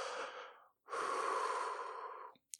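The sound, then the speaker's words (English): A deep breath in, then a brief pause and a longer, steady breath out, taken alone and softly during a relaxation exercise. “Take a deep breath.”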